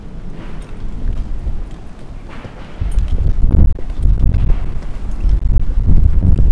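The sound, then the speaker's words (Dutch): Wind blowing outdoors at the No Border Camp, buffeting the microphone: a low, rumbling roar of gusts that becomes noticeably louder partway through and stays strong. “Ja, de wind is ook nog steeds aanwezig. Nou ja, dat is veel wind,”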